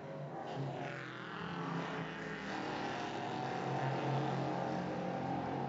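Prototype race cars brake heavily into turn 10 at Road Atlanta, heard as a low, continuous engine drone with a faint, shifting whine.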